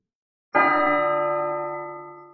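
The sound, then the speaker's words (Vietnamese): A bell rings out from a single strike, with a sudden bright onset and a shimmering, many-toned sustain that slowly fades over about two seconds. “Tiếng chuông ngân vang”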